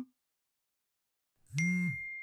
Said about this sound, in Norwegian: Ok, da sender vi en melding.